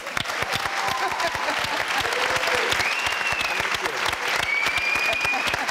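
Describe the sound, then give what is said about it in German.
Audience applause fills a TV studio celebrating 20 years of the Cologne Tatort crime series: a dense, steady patter of many hands clapping that holds at an even level to the end. “Auch hier ein Glückwunsch, den können wir direkt nochmal applaudieren.”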